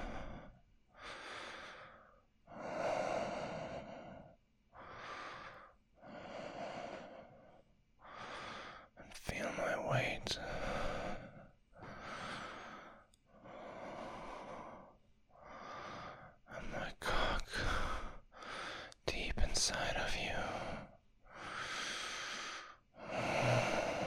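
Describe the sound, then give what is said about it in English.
Slow, deep breathing in a steady rhythm: many long inhales and exhales follow one another evenly and faintly, with a few sharper, noisier breaths breaking in around the middle. “Just listen to my breath.”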